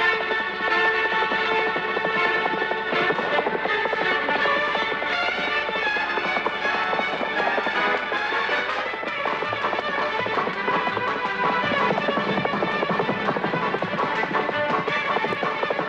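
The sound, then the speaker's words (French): A horse gallops at full speed across the open pampa, fast hoofbeats drumming in an unbroken, even rhythm for the whole stretch at a steady loud level. “Deux jours plus tard, le grand Zéro galope à bride abattue dans la pampa immense et déserte.”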